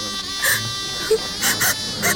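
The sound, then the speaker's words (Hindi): A woman crying and sobbing in several short wailing bursts, set against a steady, sustained tonal background. “इस तरह कब तक रोती रहोगी?”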